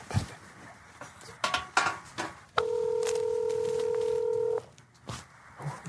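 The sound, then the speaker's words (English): Phone on speaker dialing a number: a few sharp taps and clatters, then a steady, even two-tone electronic signal that holds for about two seconds before cutting off, followed by more faint clatter. “I'm gonna press dial. Put it on speaker.”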